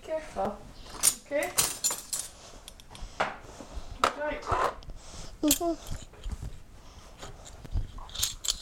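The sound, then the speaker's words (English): Dishes and cutlery being dried and put away, a few scattered clinks and light knocks among people talking. “We'll put them away after we've dried all the other dishes.”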